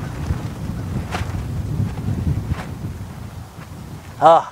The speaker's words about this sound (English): As long as we don't fly away. Whew. Let's let the wind die down for a second.